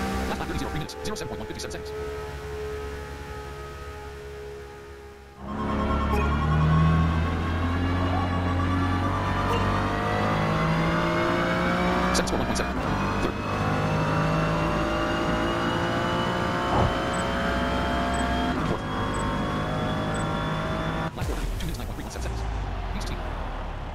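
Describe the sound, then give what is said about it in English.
A race car engine roars as the car pulls out of its pit box, freshly refuelled and on new tyres, onto a soaking wet track. A quieter stretch gives way to a loud, sustained whine whose pitch climbs steadily as it accelerates. “Your car leaves your pit box to drive back onto the soaking wet track.”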